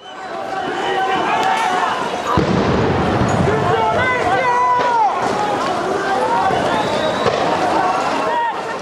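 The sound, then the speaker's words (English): Protesters run from police during anti-government demonstrations in Colombia: rapid pounding footsteps and scuffling, with shouting voices over a loud, continuous crowd roar. “This is the sound of protesters in Colombia running away from police as demonstrations continue against the government.”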